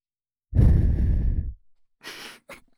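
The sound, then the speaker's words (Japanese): Soft breathy blowing into the ear in an ASMR setting: one long, airy, fairly loud puff of about a second, followed by a few shorter, fainter breathy bursts. “あ、びくった。驚いちゃったね。お耳ふうするのも ASMR の定番でしょ。”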